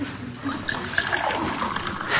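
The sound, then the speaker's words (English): Water pouring into a glass at a drugstore soda fountain counter: a steady hissing trickle that runs for about two seconds and swells slightly at the end. “Long as I'm here, though, you might give me a glass of water.”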